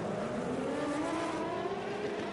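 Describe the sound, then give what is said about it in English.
GTP prototype race cars, including a Porsche and the Action Express car, roar past just after contact at the start. The engine noise is a loud, continuous drone with strong tonal harmonics and no audible voices. “One of the Porsches into the back of the Action Express car. That's Jack Aitken. Both cars able to continue on now through the fountain for the first time.”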